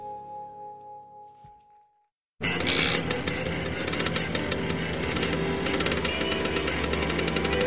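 An MZ motorcycle riding off. A faint low hum fades to brief silence, then a loud, steady engine roar with a rapid rattling pulse continues to the end.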